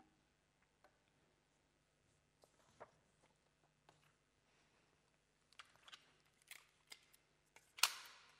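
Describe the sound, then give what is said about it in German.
Faint scratching and light tapping of a pen writing by hand on paper. The short strokes are sparse at first and grow busier toward the end, with one longer scrape. “Also ich schreibe jetzt hier”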